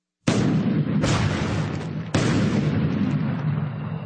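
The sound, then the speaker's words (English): An airburst detonation of a weapon produces three heavy booms in quick succession, each a sharp onset followed by a long, rolling rumble that barely fades before the next. “This airburst detonation vastly increases the weapon's destructive range. What we're doing is we're maximizing the blast, the shockwave, if you will.”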